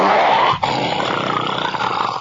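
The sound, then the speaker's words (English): A human voice imitates a bear's growl: one long, rough, low roar held loud and steady, with a brief catch near the start before it continues to the end. “can you do the growl of a bear? I said, sure.”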